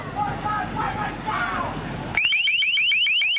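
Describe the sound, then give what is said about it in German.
A shrill electronic alarm tone from an LRAD long-range acoustic sound cannon, which resembles a car alarm but is as loud as a jet: talk at first, then a loud run of rapid, repeating upward-sweeping wails that continues to the end. “Ein Geräusch wie bei einer Autoalarmanlage, allerdings so laut wie ein Düsenflugzeug in 30 Metern Entfernung. Einige Male kam diese Schallkanone schon zum Einsatz.”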